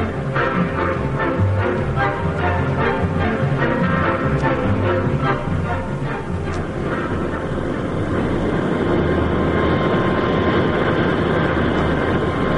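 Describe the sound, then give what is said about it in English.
An airplane takes off with a loud, steady engine roar that holds at a constant level throughout over a dense low rumble, with no voices. “It was a pretty smooth takeoff, wasn't it?”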